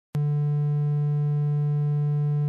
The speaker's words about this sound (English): That sound is called a triangle wave.